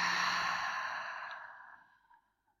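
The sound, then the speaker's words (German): A single long, breathy exhale through the mouth during a guided breathing exercise. It starts loud and airy, then tapers away over about two seconds. “Einatmen über die Nase und über den Mund wieder aus.”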